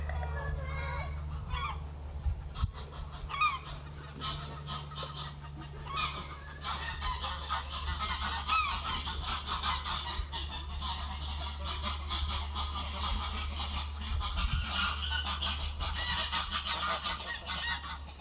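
Birds clattering outdoors on a very windy day, with goose-like honking calls scattered through a continuous bed of rushing wind and low rumble.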